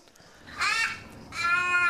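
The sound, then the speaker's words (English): Bird crowing: two harsh, raspy caws, the second longer than the first, fairly quiet and heard alone. “Well, we've heard the bird crowing in the background.”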